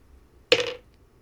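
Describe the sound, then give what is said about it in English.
Two six-sided dice are rolled in a tabletop role-playing game, making a single brief, bright rattle that fades quickly in otherwise near silence. “Can you just give me a 2d6 flat roll?”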